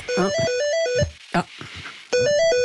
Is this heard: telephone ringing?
yes